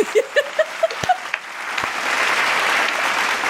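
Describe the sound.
Studio audience applause sound effect: a short run of pitched blips gives way to a steady wash of clapping that swells in and carries on to the end.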